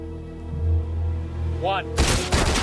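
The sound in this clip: A few loud, sharp gunshots crack in quick succession near the end of a fictional ambush scene, following a low steady hum and a brief warbling tone.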